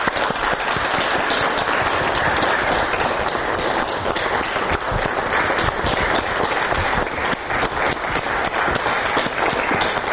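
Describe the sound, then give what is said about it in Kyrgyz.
Loud, sustained applause welcoming a parent guest: a dense, crackling wall of many hands clapping that stays full and even for about ten seconds, with no voices. “Анда кол чабуулар менен тосуп алсак.”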